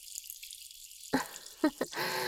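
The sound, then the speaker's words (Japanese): Water splashing as someone washes a sweaty face: a few short, soft splashes in quick succession, then steadier running water, all fairly faint. “汗びっしょりの顔を洗って、ゴシゴシゴシゴシって。”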